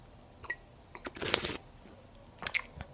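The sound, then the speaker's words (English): Close, quiet sips of tea recorded for ASMR, a few short slurps with a longer drawn-out sip in the middle, no talking. “That's a little ASMR for you, some tea drinking for you.”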